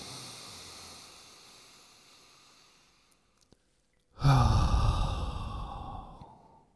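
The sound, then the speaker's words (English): A deep breath in and out: a long, soft inhale that gradually fades, a short pause with a couple of tiny clicks, then a loud, breathy exhale that slowly trails away. “Take a deep breath in with me.”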